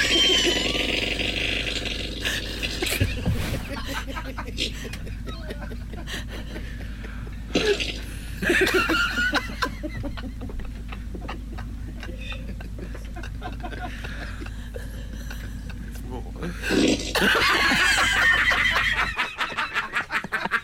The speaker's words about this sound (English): She's recording this video, and that's when you hear the fart bombing.